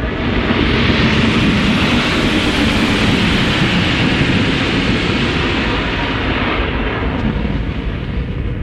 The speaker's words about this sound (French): Atterrissage réussi, nous sommes enfin arrivés sur Mars